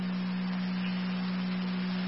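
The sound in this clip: An emergency radio dispatch alert tone for a county EMS call: one steady, low, unbroken tone that holds over faint radio static.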